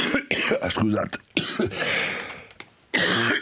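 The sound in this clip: Coughing from a man in the middle of talking, several harsh, rough bursts mixed in among voiced, speech-like sounds.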